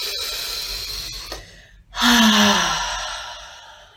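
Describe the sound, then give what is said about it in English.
A deep breath is drawn in and released during a guided sacral chakra meditation with slow seated circular movements. A steady airy inhale lasts nearly two seconds, followed by a short pause and a louder, slightly voiced exhaling sigh that gradually fades. “take a deep breath in and breath out”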